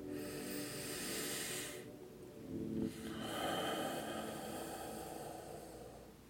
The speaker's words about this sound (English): Taking another deep breath here.